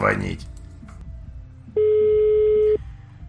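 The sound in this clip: A telephone call is placed: faint clicks and dialing noise lead into a single steady electronic tone of about one second.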